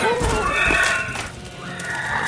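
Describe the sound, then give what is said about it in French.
A horse neighing as it is ridden at a gallop toward a farm: a loud, shrill, quavering whinny with wavering harmonics that fades and then swells again. “Je lance mon cheval au galop en direction de la ferme Le Mot.”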